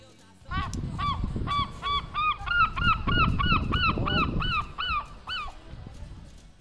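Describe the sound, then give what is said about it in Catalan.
A seagull in the United Kingdom gives a long run of loud, nasal, yelping calls in quick, even succession, each note sharply bent in pitch, over a low background rumble. “en aquest cas he de dir que sí, és una gavina més enregistrada al Regne Unit”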